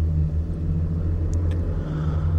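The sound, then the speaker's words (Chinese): A car driving on a road gives a steady, low, continuous rumble with no talk. “开车在路上的时候，忽然觉得窗外有一个人。”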